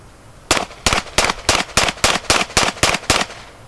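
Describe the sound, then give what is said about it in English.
Ten rapid gunshots from a semi-automatic handgun fired at a target, sharp evenly spaced cracks in quick succession, each loud and abrupt with a short decay. “Then he picked up a semi-automatic handgun from his gun bag and repeated the exercise. Held the gun out with two hands, aimed at the target, fired off 10 shots as fast as he could.”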